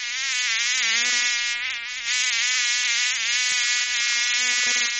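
Mosquitoes and flies buzz in a steady, loud, high-pitched drone that runs the whole time with a slight wavering in pitch. No voices are heard.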